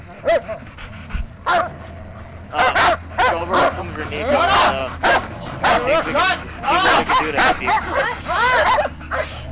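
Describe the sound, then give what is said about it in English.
Dogs bark and yip in repeated bursts, mixed with whimpering and panting, while a human voice is heard among them. “Honey, you deal with the dogs.”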